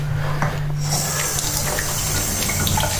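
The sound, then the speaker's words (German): Running tap water pours into a sink as something is rinsed under it, a continuous steady rushing and splashing that stays loud and even throughout. “Den brauche ich jetzt mal kurz abspülen.”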